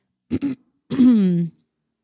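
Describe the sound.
A single throat clearing: two short rough bursts followed by a longer, voiced, rasping hum that tapers off.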